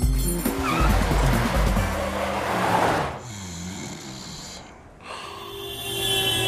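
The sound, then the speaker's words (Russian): A car drives along a highway with a loud, continuous roar of engine and tires. The tone shifts partway through, and the sound dips briefly before swelling again. “Едет по трассе. Он спит на ходу.”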